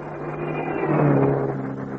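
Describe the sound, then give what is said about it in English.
A car drives on the road behind, its engine a steady, moderately loud drone that swells slightly midway and then eases off. “There's a car behind us.”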